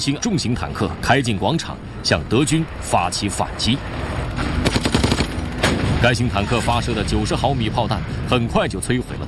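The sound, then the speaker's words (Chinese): German MG34 machine-gun fire during World War II fighting at Remagen: rapid, crackling bursts and heavier bangs under continuous talk, densest toward the middle. “当巴罗斯的人马仍被德军用 MG34压制时”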